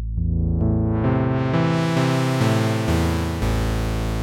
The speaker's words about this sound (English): And then increasing the cutoff frequency gradually will brighten up the sound like this.